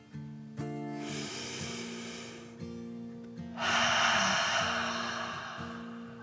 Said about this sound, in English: took another dragon breath, calming her body.